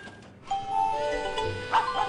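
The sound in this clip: A dog-bark notification sound from a messaging alert: short synthetic woof-like tones with a bright ringing edge, fairly loud and standing alone.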